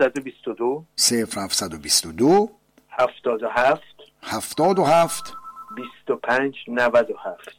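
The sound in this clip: A short electronic telephone ring sounds, a steady tone of about a second that comes between stretches of people talking.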